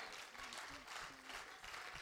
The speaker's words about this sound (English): Why don't we clap our hands for Him doing